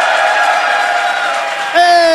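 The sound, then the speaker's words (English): An audience cheers and whoops as a guest is introduced, with faint applause under the voices and a loud shout near the end. “please give him a round of applause. It's Mr. Sebastian Stafford Bloor.”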